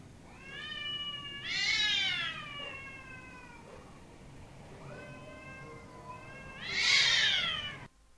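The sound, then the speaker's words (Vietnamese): A cat meows twice in long, drawn-out, wavering cries, each swelling loud in the middle, with a quiet gap between them and no other sounds. “hóa ra chỉ là con mèo”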